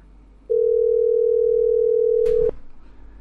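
Ringback tone on an unanswered phone call: a single loud, steady, mid-pitched tone lasts about two seconds over a low hum, ending with a short burst of noise.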